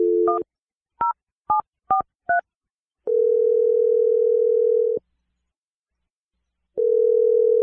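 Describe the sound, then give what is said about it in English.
Touch tones sound as a telephone number is dialed: five short, crisp beeps in an uneven rhythm, followed by two long, steady ringing tones separated by a pause. “I'm going to dial her number right now.”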